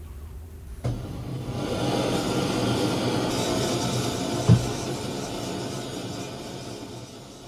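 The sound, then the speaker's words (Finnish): Gas burning to heat the iron of a three-tonne engine being started on the Finnmark coast gives a steady roaring hiss that begins abruptly after a short quiet, with one sharp knock midway. “ihminen antaa elämän kolme tonnia painavalle koneelle, tapahtuu samaan aikaan kautta koko Ruijan rannan. Kaasu palaa, rauta kuumuu.”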